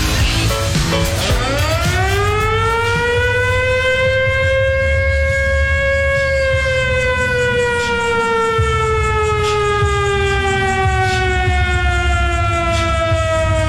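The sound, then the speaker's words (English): A siren-style hype horn is fired up on a sports radio show. It sweeps quickly upward in pitch, then holds a long, loud wail that sags slowly downward over more than ten seconds, with nothing else heard. “get that hype horn fired up.”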